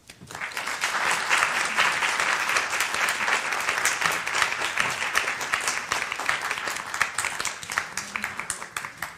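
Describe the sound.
Applause from an audience welcoming guests at a library author event: dense, steady clapping that starts almost at once and continues evenly throughout, fairly soft overall.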